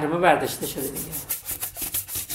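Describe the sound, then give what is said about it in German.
An office washbasin is scrubbed with quick, rhythmic rubbing strokes that repeat many times, a fairly loud swishing pulse with no talk. “schrubbt noch schnell ein Waschbecken, bevor es ins nächste Büro geht.”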